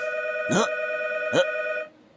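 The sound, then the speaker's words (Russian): A telephone rings in an apartment with a steady electronic tone held for nearly two seconds. Two brief sweeping chirps sound over it before it cuts off to near silence. “Пожалуйста, сейчас в нашей квартире зазвонит телефон.”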